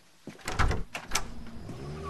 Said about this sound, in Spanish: Mark abre la puerta.